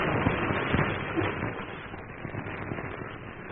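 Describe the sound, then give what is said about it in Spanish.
Fire crackles through the wooden walls of a burning shack as it collapses, with dense, irregular pops and snaps over a continuous rushing bed at fairly even loudness. “¡La casucha se derrumba! Paredes de madera envueltas en llamas contra la base.”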